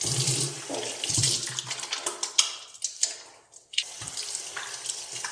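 Hands being washed under a running tap, with water splashing steadily into a sink and irregular sloshes as the hands move. The flow drops away briefly partway through, then resumes.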